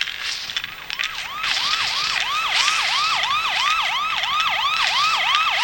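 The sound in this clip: A police siren wails in a fast, repeating rise-and-fall cycle, loud and steady, beginning after a brief stretch of other busy sound and continuing without a break to the end.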